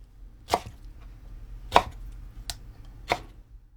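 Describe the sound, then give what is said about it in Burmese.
A knife chops food into 4 cm pieces with four sharp, dry strikes at uneven intervals. The chops stand alone against near silence, with no voices. “ပြီးလို့ရှိရင်4စင်တီမီတာအရွယ်အရှိဖြစ်အောင်လီးပ”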